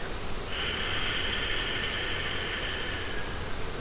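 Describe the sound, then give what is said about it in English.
A slow, controlled exhale through the nose during a yoga breathing exercise makes a soft, airy hiss that holds steady for about two and a half seconds over faint background noise. “hold the breath, and now exhale through the nose.”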